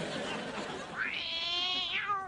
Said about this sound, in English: I see you have a cat.